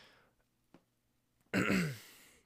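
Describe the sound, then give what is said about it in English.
A single harsh, raspy throat clearing rises abruptly and then trails off in a lower rumble. It is loud and heard alone, with no talk around it. “I'm fucking clearing my throat like an asshole.”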